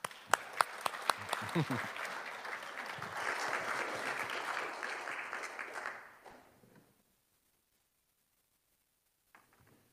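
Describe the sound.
Church audience applause at St. George's welcoming a visiting preacher on Pentecost, a burst of steady clapping that swells, holds for several seconds, then thins and fades out, leaving near silence with a couple of faint late claps.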